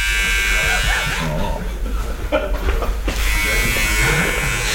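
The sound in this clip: An electric shaver buzzes steadily as it shaves a customer's face, passing over the nose. The motor hum keeps a constant, fairly loud drone, with brief dips in tone as it moves, while people talk over it.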